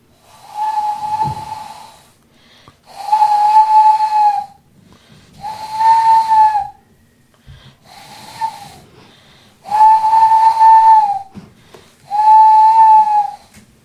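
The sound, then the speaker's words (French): A child imitates an owl call with six breathy, hooting whistles. Each is a held, steady-pitched note lasting about a second, separated by short silent pauses. “tu nous as fait l'appel de la chouette”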